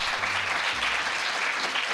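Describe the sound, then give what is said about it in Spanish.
Audience applause, a dense, even wash of clapping that holds at a steady level for the full two seconds, with no voices standing out. “Y yo normalmente en estos momentos pongo un aplauso enlatado, pero ahora lo pido de verdad.”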